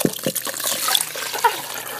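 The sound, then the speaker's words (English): Milk pours in a kitchen as a sound effect: a short liquid trickle with a few gurgling glugs, lasting about two seconds at moderate loudness. “And that's the sound of pouring in the kitchen. Glug, glug, glug, glug.”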